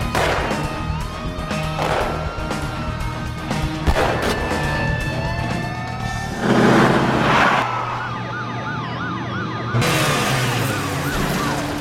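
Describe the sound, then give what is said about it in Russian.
A car overturns in a crash during a police chase, with heavy, noisy crunching bursts over continuous engine roar and wailing sirens that rise and fall. “Машина переворачивается.”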